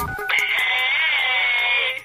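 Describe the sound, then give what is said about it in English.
An electronic telephone ring on a radio show's celebrity phone line: one sustained, warbling high tone that lasts about two seconds and then cuts off. “let's go to the celebrity phone because it's actually blinking a bunch of different colors today”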